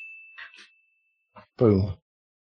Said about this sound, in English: the sword noises were louder than anything else by far. It's like the voices were super low and the sword was super loud.